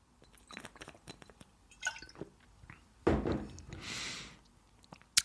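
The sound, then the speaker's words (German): Wet mouth and liquid sounds of a final sip from a drink: several soft clicks and squelches, then a sudden louder gulp-like burst followed by a brief breathy hiss, with no talk. “Ja, letzter Schluck.”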